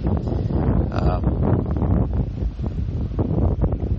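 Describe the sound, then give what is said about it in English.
Wind blows outdoors on a hazy day and buffets the microphone with a steady, loud, low rumbling roar. Fluttering gusts rise and fall throughout without any pause. “But really windy out here today and really hazy.”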